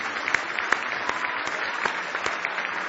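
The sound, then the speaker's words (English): Hand clapping of praise from a church audience during a service, with sharp claps landing in a steady, even rhythm over a bed of continuous clapping for about three seconds. “Give Him one more hand clap of praise tonight.”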